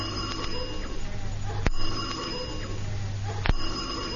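A telephone rings with a steady, buzzing electric tone and a low hum beneath it, broken by two sharp clicks.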